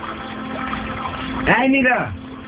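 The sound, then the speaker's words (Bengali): Running, splashing water as someone bathes late at night with cold water at a village home, a steady wash of sound; a brief voice cuts in near the end. “হলো তোমার? এই তো বেরোচ্ছি, 5 minute. এত রাতে গোসল করার কি দরকার? এখানকার পানি কিন্তু অনেক ঠান্ডা।”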